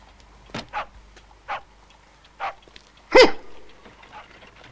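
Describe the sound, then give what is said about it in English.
A curly-haired spaniel barks a few times in short, separate bursts, with one louder, fuller bark near the end among quieter yips. “I was right. A curly-haired spaniel.”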